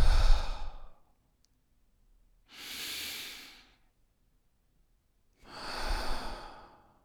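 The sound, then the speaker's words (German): Slow exhalations during a guided breathing meditation: three long, soft, breathy out-breaths, each fading away, separated by quiet pauses. “Und wieder ausatmen.”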